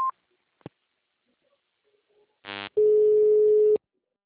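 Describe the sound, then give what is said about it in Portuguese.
A telephone system tone follows an automated message: a brief high beep and a click, then a short buzzy burst and a steady mid-pitched tone lasting about a second. “Atendimento digital. Após o sinal, digite o ramal ou aguarde.”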